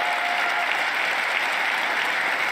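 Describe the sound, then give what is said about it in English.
Dense, steady applause from an audience at a political speech on clean energy and climate policy, sustained at an even, full level for the whole stretch with no voice standing out. “This is cheering for those climate things.”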